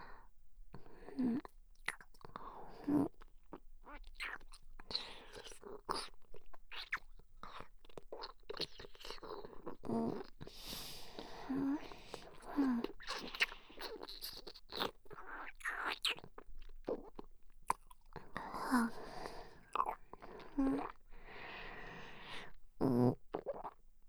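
Crunchy bites and wet chewing of food, many sharp crackling bites and mouth sounds following each other unevenly throughout, close and fairly quiet, with soft breathy vocal sounds between some bites.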